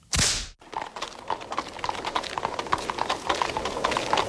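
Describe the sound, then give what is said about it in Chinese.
Hooves clip-clop from a horse-and-mule cart moving through a quiet, cold winter night. The hoofbeats are steady and brisk and keep on to the end, with a short loud hiss at the very start. “冬天的深夜异常宁静，没有虫鸟的吟唱，只有干冷的风在任意吹动，马车行走的声音打破了风的旋律。”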